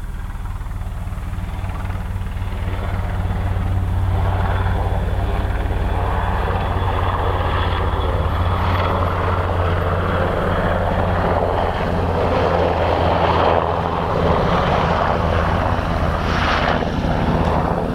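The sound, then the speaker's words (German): Low-flying army helicopter passing close overhead near a small village, a loud, steady rotor-and-engine drone that holds for the whole stretch with no voices. “Oh, ein Armeehelikopter.”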